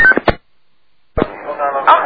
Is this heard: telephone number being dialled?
yes